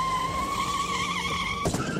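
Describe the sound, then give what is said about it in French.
Tires squeal in a long, high, wavering whine from a car skidding into an accident. The whine holds steady, then a short noisy burst cuts in near the end. “Mulholland Drive, après un accident de voiture qui l'a rendu amnésique”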